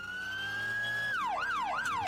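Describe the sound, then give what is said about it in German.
Ambulance siren racing onto a motorway at night in the rain: a steady high tone holds, then breaks into a rapid rising-and-falling wail with repeated sweeping cycles, loud and continuous. “Der Rettungswagen schießt auf die Autobahn. Blaulicht schneidet durch den Regen. Die Sirene zerreißt die Nacht.”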